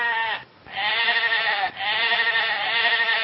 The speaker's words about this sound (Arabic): المارينو اللي بتدي الصوف الجميل، لها مأمأة معينة كده مختلفة عن أي خروف آخر.